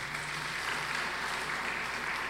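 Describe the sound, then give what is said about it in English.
Applause from an audience at a church worship service, a dense, continuous wash of many hands clapping that stays soft and even throughout without a break. “so let's give them a hand clap.”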